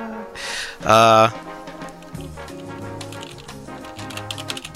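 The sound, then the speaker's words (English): Typing on a keyboard: rapid, irregular clicks of keys over soft background music. “sorry, I had to type something. Typey, type, type. That's what I do. I type too much.”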